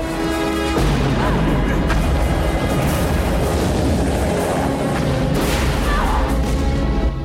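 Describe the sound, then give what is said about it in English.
Explosions destroying a building, one blast after another: after a brief lead-in, a loud, dense roar of booms and crashing debris runs continuously to the end. “As one explosion after another rocks and destroys the building, Ray and May flee along the bridgeside tunnel.”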